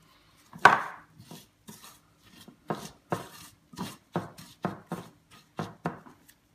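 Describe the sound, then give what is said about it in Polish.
A utensil clinks and knocks against a bowl as flour and breadcrumbs are mixed together. The hits are many, irregular and fairly quiet, with sharp, brief contacts and no talk. “tutaj daję tylko mąkę i bułkę tartą, także ja to razem wymieszam, bułkę tartą i mąkę.”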